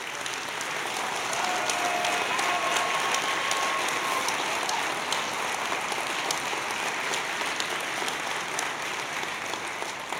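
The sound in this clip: Audience applause welcoming young airmen from F.E. Warren, a dense, steady wash of clapping that stays loud and even for the whole stretch.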